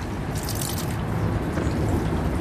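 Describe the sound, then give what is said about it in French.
Water poured from a small wooden ladle over a hand at a spring-water washing basin, a steady, moderately loud splashing trickle that runs without a break from start to end. “je prends la petite louche en bois dans ma main gauche. Je verse l'eau sur ma main droite.”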